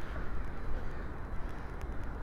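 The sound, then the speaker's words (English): Crows caw outdoors, a few harsh, rasping calls set against a steady, dense background rush. “Man, crows are in the air.”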